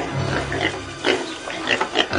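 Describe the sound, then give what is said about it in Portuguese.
Many pigs grunt and oink as they feed, with a few loud, short snorting bursts rising over a steady rough rumble of snuffling, and no voices. “Acontece que perto dali estavam muitos porcos comendo.”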